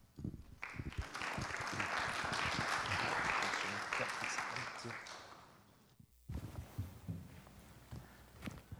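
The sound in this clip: A church audience applauds to welcome a speaker to the pulpit; clapping swells quickly, holds as a dense sustained patter for several seconds, then fades out, followed by a few softer scattered sounds.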